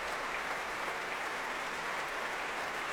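At the Royal Albert Hall, an audience applauds the BBC Symphony Orchestra after an Elgar symphony. The clapping is even and continuous, a faint, unbroken hiss of many hands.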